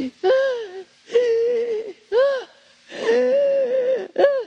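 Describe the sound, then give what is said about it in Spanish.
A person imitates loud crying and wailing in five drawn-out vocal bursts. Each sob arcs up and down in pitch, and short pauses separate the bursts. “Porque cuando uno llora a ese extremo, no nada más llora así, Llora así.”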